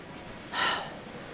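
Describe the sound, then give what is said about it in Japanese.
One deep breath drawn in through the mouth, a breathy inhalation of about half a second that swells out of a quiet hiss and then fades. “深呼吸してみろ。吸って、”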